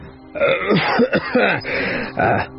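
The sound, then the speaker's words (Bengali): A man coughs lightly behind a raised hand, giving a few short, voiced coughs and throat-clearing sounds in an uneven rhythm, alone without other speech. “পুটিরাম মুখের সামনে হাত তুলে একটু কাশল।”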